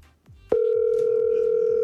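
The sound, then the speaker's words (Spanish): A telephone dial tone sounds while a call is redialed. It begins abruptly after a brief click, then holds one loud, constant pitch to the end. “Déjame marcarlo otra vez.”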